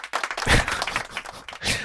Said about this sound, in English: First of all, you get claps for that.